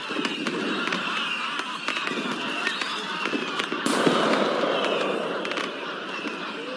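Crackling, popping bursts and whistles as a wooden horse packed with thundering rockets is set alight at the tail and explodes, many rapid crackles throughout with a louder burst near the middle and continued sputtering after.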